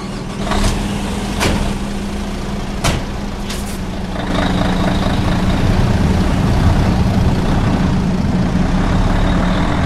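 A truck idles then starts off and drives away from a transport company's depot before dawn. The steady low engine rumble carries a few short hissing bursts early on, and the noise grows louder partway through as it moves off.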